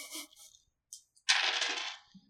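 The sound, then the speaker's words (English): Percentile dice roll across a table with a bright clatter. A couple of brief rattles come first, followed by a longer tumbling roll that settles and stops. “Roll D percent for me, please.”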